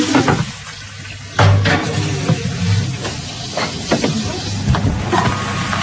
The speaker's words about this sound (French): Vous avez tourné les patates. Regarde, tu tournes les patates comme ça.